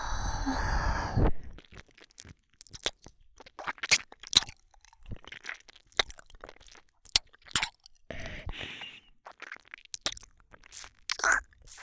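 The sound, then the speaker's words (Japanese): ASMR ear massage recorded on a binaural microphone. Soft, crackly rubbing and scratching sounds come in quiet, irregular bursts of varying intensity over a near-silent background. “まずはお耳からほぐさせていただきます。まずは、こちらのお耳から。”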